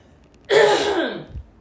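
A single loud throat clearing, a harsh raspy burst just under a second long that tails off into a low grunt, heard alone without talk.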